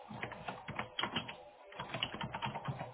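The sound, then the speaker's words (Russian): Typing on a computer keyboard while writing down a note: rapid, irregular clicking keystrokes in quick bursts, with a brief pause near the middle. “Сейчас, секунду, я пишу сразу, чтобы не забыть.”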